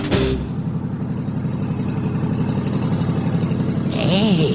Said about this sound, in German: Hör ich richtig? Dieses Auto kenne ich.